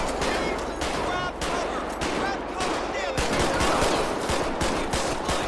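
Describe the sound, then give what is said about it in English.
Gunfire in a police video game: many rapid, sharp shots crack in quick succession, densest in the second half, alongside voices talking. “Shots fired. Shots fired.”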